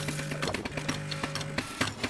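A fully automatic espresso machine brews an espresso with a quiet, steady pump hum broken by irregular clicks and rattles.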